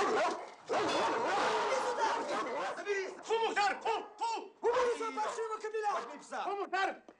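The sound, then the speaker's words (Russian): A police service dog barks and yelps in a dark room, giving a rapid series of loud, sharp calls with whining in between, while a man's voice shouts over them. “Кто здесь есть? Выходи! Пускаю собаку!”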